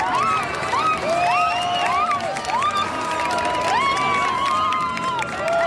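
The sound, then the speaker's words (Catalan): An audience at a stage show cheers wildly, with high wavering shrieks and whoops overlapping in a dense, loud, continuous roar. “doncs ara hi ha un moment de bogeria absoluta aquí entre el públic. Ah, t'ho diràs. Sí, mira, mira, escolta.”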